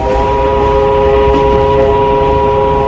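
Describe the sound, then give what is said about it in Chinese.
A train sounds a long whistle while speeding across a northeastern plain: a sustained, steady multi-note blast that holds unbroken over a loud, constant rumble for the whole stretch. “列车一声长鸣，飞驰在东北的平原上。”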